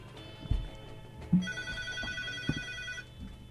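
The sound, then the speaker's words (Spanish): A telephone rings with an incoming call, one sustained burst of bright electronic ringing lasting over a second, with a few dull thumps before and after it. “Tenemos una llamada.”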